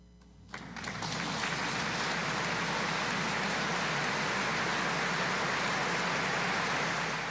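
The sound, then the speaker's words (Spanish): An opera audience applauds after a coloratura aria. The applause starts from near quiet, quickly builds to a dense, even roar of clapping and holds steady to the end. “Escuchamos el público de aquella noche, espectacular, emocionado.”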